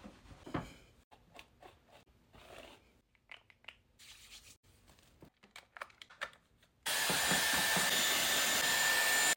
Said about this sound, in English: Luckily, I don't have to make my hair look super nice. So all I'm gonna do is rough dry it, and then I'm just going to apply a tiny bit of makeup.